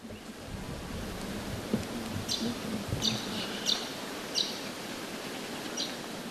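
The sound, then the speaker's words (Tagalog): Endangered golden-shouldered parrot of Cape York calling: several brief, high-pitched chirps spaced about a second apart, faint over a steady, rushing background hiss. “Iyan ang tunog ng nanganganib na lorong may ginunto ang balikat sa Cape York”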